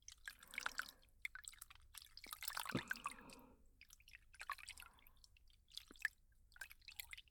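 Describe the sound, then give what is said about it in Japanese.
Warm water rinses foam away with soft, irregular splashing, dripping and squishing that come in uneven bursts, busier in the middle, with no voices. “泡が残らないように、丁寧に流していきます。”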